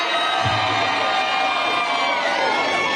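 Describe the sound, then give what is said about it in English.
Crowd cheering and whooping at an after party following a debate. The roar is loud and steady throughout, with shouts and yells rising out of the mass of voices. “Can you imagine cheering wildly for that performance?”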